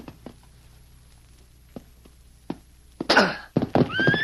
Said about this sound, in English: I'll walk to the other side of this bronc. I'm going to mount him.